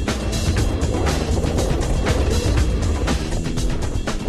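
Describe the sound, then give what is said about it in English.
A Ford Model T drives slowly over dirt despite a troubled clutch. Its rough, continuous engine rumble is mixed with scattered clattering and gritty noise, holding steady in loudness throughout. “in the Model T. There's dirt flying everywhere. It's a lot slower than I thought. Going slow. I think he may be having some problems with the clutch there.”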